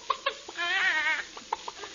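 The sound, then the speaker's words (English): Chicken clucking in a beauty-salon comedy scene: short, clipped clucks around a drawn-out, warbling squawk, fairly faint against a quiet background. “what are you doing with that chicken?”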